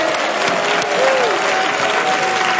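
An audience claps during a church program, a loud, dense wash of applause that stays level and continuous throughout.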